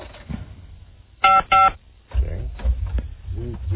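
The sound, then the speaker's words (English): Telephone keypad tones as a number is dialed: two short, steady dual-tone beeps in quick succession, with voices and low noise around them. “If you dial it. We can dial it and see what's going on.”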